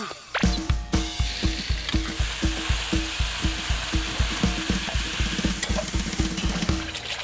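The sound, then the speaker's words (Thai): Fresh home-laid duck eggs frying sunny-side up in a pan: loud, continuous sizzling and spitting oil, with a steady, rhythmic tapping of the pan running throughout. “เดี๋ยวเราเอาไข่ไปให้แม่ทอดกันค่ะไข่ดาวเยิ้ม”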